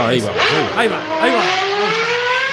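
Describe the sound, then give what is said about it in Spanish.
Car engine revving on a motoring program, its pitch climbing steadily as the revs build, heard beneath loud overlapping talk. “Motor, dale caña ahí. Dale, súbele. No le sube. No, porque estaba ahí con el motor.”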